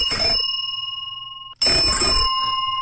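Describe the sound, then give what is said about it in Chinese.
A large British Lucas bicycle bell from the 1930s, about seven to eight centimetres across, rings loudly twice: each rapid rattling trill is followed by a bright, sustained ringing tone that lingers after the strike stops. “这个车铃挺大， 首班铃里头它是大号的， 大号首班铃”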